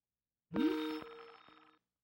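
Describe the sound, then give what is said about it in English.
A telephone rings once in a single metallic, bell-like burst with a sharp onset that gradually fades over about a second, heard alone without talk. “The phone's ringing, dude.”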